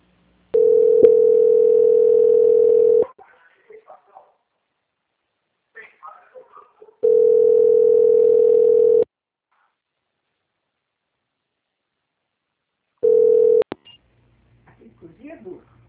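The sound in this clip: A telephone line plays a steady mid-pitched tone while a bank call is transferred to quality control. Three tone bursts are heard, two long and one short, with brief faint fragments of speech in the quiet gaps between them.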